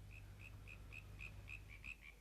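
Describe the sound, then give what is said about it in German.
Frogs croak at night in the wind, a steady train of short chirping croaks repeating about every quarter second. They sound faint over a continuous low rumble of wind. “Still. Hörst du nicht? Wind, Frösche und ein Igel im Gebüsch.”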